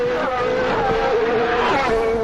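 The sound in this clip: Racing car engines on track during a race, the cars running soft tyres: a loud, sustained high engine whine with a slight wobble in pitch over a rough, rumbling base.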